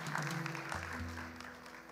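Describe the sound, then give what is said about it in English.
Congregation clapping hands in church: a soft, dense patter of applause over sustained low tonal notes. “Give the Lord a hand clap if you don't mind.”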